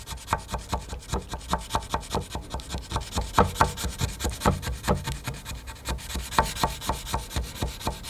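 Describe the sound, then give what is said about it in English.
Rhythmic rasping strokes of sandpaper removing filler from a tall post-shaped Sapele wood sculpture with wetted wood: many steady back-and-forth rubs, fairly even in pace and loudness, with no talking. “We've got to sand off this filler. Wet the wood. The sculpture is made from Sapele wood”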